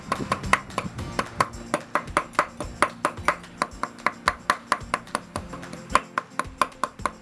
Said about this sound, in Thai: เนื้อปลาวันนี้เราใช้เป็นเนื้อปลานิลเนาะซึ่งอันนี้เดี๋ยวเราจะสับแบบให้มันทำเป็นเนื้อห่อหมก